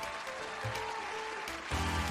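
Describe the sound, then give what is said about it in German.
An audience applauds to welcome a quiz show host. The clapping is faint and continuous and grows somewhat louder toward the end. “Und nun einen kräftigen Applaus für Ihren Gastgeber Alex.”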